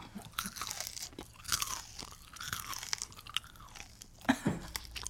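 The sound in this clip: Crunching and chewing of a rice cake: many crisp, irregular bites and grinding chews with no talking.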